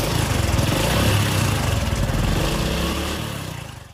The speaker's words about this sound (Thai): ถ้าทำได้ตามนี้สตาร์ทรถออกไปกันเลย